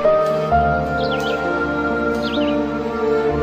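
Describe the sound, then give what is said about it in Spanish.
Birdsong chirps in a guided meditation, a few short bright bursts in two brief clusters, sounding over a steady, sustained music bed with a low drone underneath. “Escucha el canto de las aves que te arrullan con su dulce canto.”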